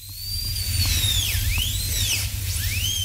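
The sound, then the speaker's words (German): A dentist's drill whines as it drills out tooth decay, a shrill high tone that dips and climbs again several times over about three seconds, with a low hum underneath. “Wenn jemand Karies am Zahn hat, können die Zahnärztin oder der Zahnarzt das schnell und passgenau wegbohren. So schnell, dass man es kaum spürt, auch wenn es sich anders anhört. Weil es so schön war, hier nochmal das Geräusch.”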